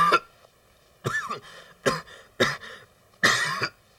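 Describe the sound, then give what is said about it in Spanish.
A person coughs five times in an irregular sequence. Each is a loud, harsh, hacking burst separated by short silences, with no talk. “Esta maldita tos.”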